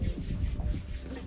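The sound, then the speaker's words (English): Hands rub briskly together in several quick strokes, a soft swishing friction over a low rumble. “That's him rubbing his hands”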